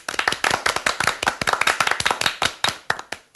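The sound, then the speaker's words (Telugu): A few people clap at a wedding, many crisp, distinct hand claps in a quick, loosely shared rhythm that thins to sparser, separate claps toward the end, with no voices. “అందరూ చప్పట్లు కొట్టండి.”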